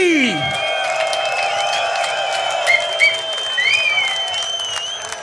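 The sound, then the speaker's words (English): An audience cheers and applauds for the Italian act TNT at the Decibel Outdoor 2023 festival, with sustained, dense clapping and crowd roar continuing unbroken throughout. “put your hands up and make the loudest noise possible for these guys right here, all the way from Italy. Ladies and gents, please put them up and make some noise for TNT.”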